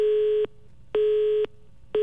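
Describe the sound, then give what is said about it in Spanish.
Telephone busy tone after a dropped call, a steady mid-pitched beep pulsing on and off in an even rhythm of roughly half-second tones and half-second gaps, loud and alone. “se nos cayó la llamada, pero seguimos en línea”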